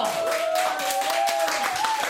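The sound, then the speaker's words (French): Applause from an audience for performers after a poetry recital, a dense, steady wash of many hands clapping that holds at an even level throughout with no pauses. “On peut les applaudir maintenant.”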